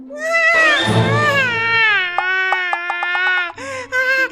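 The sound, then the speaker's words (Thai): A voice imitates a young snail crying loudly in a children's story: a long wavering wail, then a run of quick, rhythmic sobbing catches, and a few shorter whimpering sobs at the end. “ลูกหอยทากจึงได้ร้องโฮออกมา”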